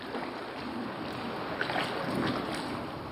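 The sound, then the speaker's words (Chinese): A boat being rowed across the high-purity water pool inside a water Cherenkov cosmic-ray detector during maintenance, heard as a steady wash of water and air noise with a few faint swells; no voices. “此刻科研人员正划船进入探测器内部，对这里的设备进行集中维修和更换。”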